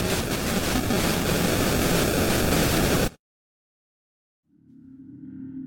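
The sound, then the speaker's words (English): Loud, harsh hissing static from a camera recording fills the first three seconds, then cuts off abruptly to silence before a faint low hum slowly swells in. “an unintelligible section continues for several minutes as the camera recorded nothing but darkening static.”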